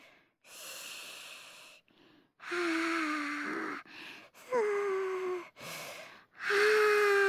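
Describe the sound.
Slow, deep belly breathing by a child: several long inhales and exhales of uneven length separated by short pauses, some exhales carrying a soft voiced sigh, fairly loud and breathy.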